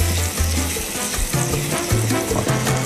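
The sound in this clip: Butter and sugar cooking gently into a vanilla caramel over low heat give off a soft, continuous sizzle and bubble that holds steady throughout, with no voices.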